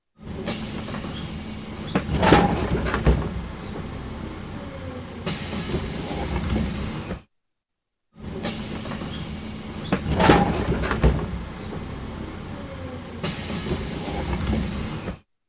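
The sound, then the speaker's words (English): Bus door opening over a steady engine rumble, with a sharp mechanical clunk followed by a bright hissing release. The sound plays twice with a short silent gap between. “The sound you just heard was a recording of a bus door opening.”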